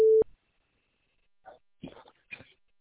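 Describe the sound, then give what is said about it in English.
A voicemail system's recording beep opens with a single short, steady mid-pitched tone. Near silence follows, broken by a few faint scattered noises. “You have reached the voicemail system. Please leave your message after the tone.”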